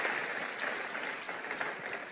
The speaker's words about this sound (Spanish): Un aplauso a la palabra del Señor.